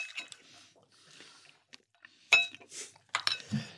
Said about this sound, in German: natürlich jetzt auch umrühren, bevor du isst.